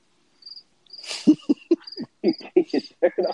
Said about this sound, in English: How dare y'all not like the cricket sound effects?